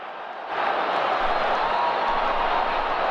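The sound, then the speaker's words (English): Wrestling crowd cheering, played from a YouTube clip: a broad roar of many voices swells sharply after a brief moment and then holds as a steady, loud, dense wash of noise. “Got him. Holding him. Damn. The crowd goes wild.”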